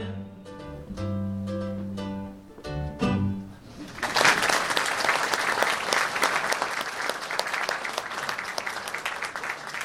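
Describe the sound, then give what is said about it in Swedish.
Audience applause at a live show breaks out as music with singing ends, swelling into a loud, dense, steady clatter of many hands clapping that carries on to the end. “Tack för det, och mycket välklappat måste jag säga.”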